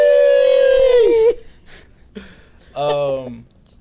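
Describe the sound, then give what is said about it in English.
A dog howls a long, steady tonal note that dips in pitch at its end. After a short pause comes a second, briefer and lower wavering howl. “That's my dog.”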